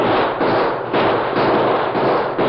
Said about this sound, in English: Those shots are coming from the woods.